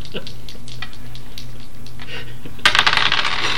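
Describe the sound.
Dice roll across a table during a tabletop role-playing game. A quick burst of rattling clicks comes near the end, after a stretch of quieter background noise.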